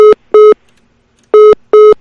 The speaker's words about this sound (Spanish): Bueno, intentábamos comunicar con el exterior. Teníamos prevista esa llamada.